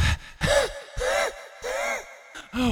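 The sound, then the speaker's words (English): Heavy, gasping breaths from a person badly out of breath after running, several loud voiced pants in an uneven rhythm separated by short silences. “You're just really out of breath. Oh, no. That was the longest meter I've run”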